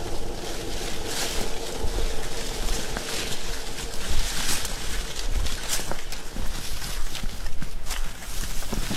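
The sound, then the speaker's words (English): Footsteps tramp through a wet slough near the Salish Sea, many steady squelching steps continuing evenly over a constant bed of wind noise. “So that's pretty characteristic noise is walking through the Slough.”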